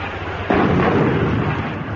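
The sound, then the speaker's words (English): An artillery shell explodes near a ship off an island: one sudden, loud blast breaks in after a low background rumble, then spreads into a sustained roar that slowly eases without fully dying away. “Good heavens, they must think we're off the ship. They're definitely shelling us.”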